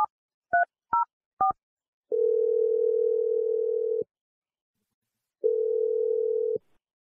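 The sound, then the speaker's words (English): Telephone dialing and ringing on an outgoing call: four short touch-tone beeps in quick succession, then two long, steady ringback tones separated by a pause. No voices are heard. “I'm going to dial Holly. Let's see what she has to say. Here we go.”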